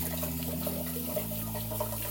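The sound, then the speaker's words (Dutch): Cold tap water running over boiled green beans to rinse them and stop the cooking, a steady rushing stream with a humming tone that drops in pitch midway. “Ja, dus even koud water eroverheen. Ja. Anders heb je kans dat ze binnen nog doorkoken, toch? Oké, we spoelen ze eventjes.”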